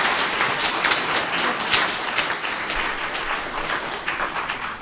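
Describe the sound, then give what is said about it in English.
Applause from an audience welcoming children onto the stage for a Christmas performance, a thick, even wash of clapping that holds steady and moderately loud throughout and eases slightly toward the end. “我们现在鼓掌给他们鼓励，欢迎他们上来。”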